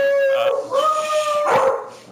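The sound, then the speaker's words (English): Dogs howling and yipping, a sustained, wavering, high-pitched howl with sharp yips mixed in, loud and continuous across the whole clip. “Sorry. Dogs.”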